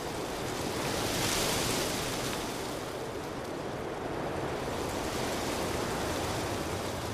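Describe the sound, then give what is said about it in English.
Aspen tree leaves tremble in the wind, making a steady, broad rustling hiss that swells slightly and then stays even throughout, with no voices. “A beautiful tree, an ancient tree, a tree which has woven itself into the very fabric of our heritage, the trembling beauty of the aspen.”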